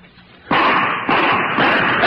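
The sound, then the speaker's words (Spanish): Gunshots as a radio-drama sound effect: three loud, sharp bursts about half a second apart, each trailing into a dense, noisy wash that barely fades before the next one, with no voices. “Ya me divisaron. Me están disparando.”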